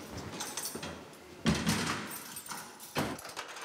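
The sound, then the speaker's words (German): Heavy metallic clunks and rattling as a cell door is locked in a prison, with two loud, sharp impacts standing out amid lighter jangling and scraping. “Können Sie abschließen, bitte? Mach ich.”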